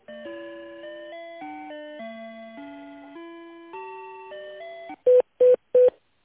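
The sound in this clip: Telephone tones as a call is transferred: a sequence of stepped electronic tones shifting up and down in pitch, then three short, loud beeps at one pitch, with no talking.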